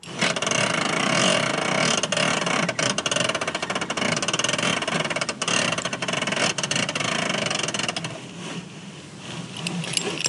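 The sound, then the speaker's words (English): A car seatbelt released slowly: a continuous mechanical whirr full of rapid ratcheting clicks that runs for about ten seconds, growing quieter toward the end. “That was the sound of me releasing my seatbelt slowly in the car.”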